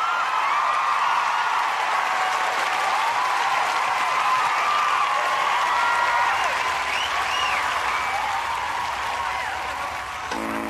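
Audience applause for a guest at a live show, dense and sustained clapping that holds at full strength for about ten seconds before easing slightly at the end.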